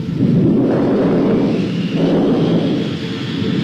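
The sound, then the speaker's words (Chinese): Thunder of an approaching storm: a loud, deep, continuous rumble that swells twice and rolls on without break. “暴风雨要来了”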